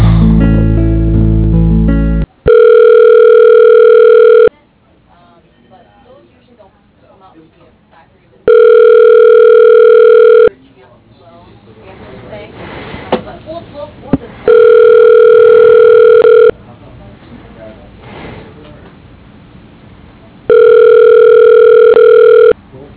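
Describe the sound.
Telephone ringback tones play as a call is transferred to voicemail: four steady, evenly spaced tone bursts, each about two seconds long, separated by gaps of low noise and faint muffled sound.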